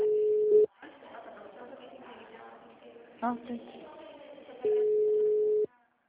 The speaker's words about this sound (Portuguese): Você ligou para uma agência do Santander. Tá chamando, vamos ver se alguém atende.